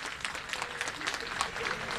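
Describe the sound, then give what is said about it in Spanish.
Applause from a football stadium crowd for the players, a dense, crackling mass of clapping with small irregular swells, moderately loud and continuous for two seconds. “Se escucha ahí los aplausos, ahí estábamos probando el micrófono ambiente también con los aplausos para los jugadores de San Lorenzo de Luqueño”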